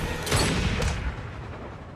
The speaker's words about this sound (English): Got him, good shot.